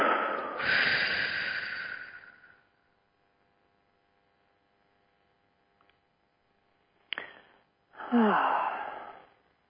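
A group breathes together during a guided energy-clearing meditation: a long, loud breathy rush, then a near-silent pause, then a brief click and another short breathy surge.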